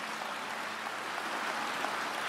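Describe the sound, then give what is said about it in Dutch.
Soft applause from a church audience, a faint, continuous wash of many hands clapping at an even level throughout, with no voices heard. “Geef een applaus aan de heren.”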